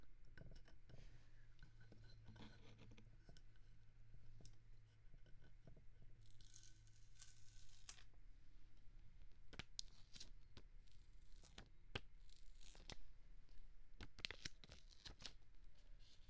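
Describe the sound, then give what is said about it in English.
Peeling a sticker off a device that runs on a 9V alkaline battery gives a series of dry, crackling tearing rasps in irregular bursts, with a low steady hum beneath the first few seconds. “But the sticker is ugly and I want to remove it, so...”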